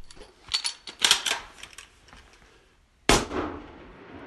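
Rifle shots ring out during a shooting test with a right-handed rifle in Svalbard: a few sharp cracks, the last one loudest with a trailing decay after a short pause.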